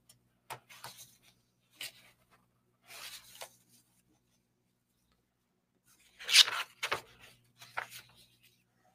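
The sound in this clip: Printed paper rustles and crinkles as sheets are handled, in several short bursts separated by quiet gaps, with a denser, louder flurry of rustling near the end.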